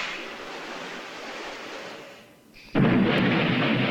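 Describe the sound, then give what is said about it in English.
A flare gun fires with a sudden loud boom that cuts through quieter rushing noise, followed by a sustained roaring hiss. “Wow. That's a powerful flare gun.”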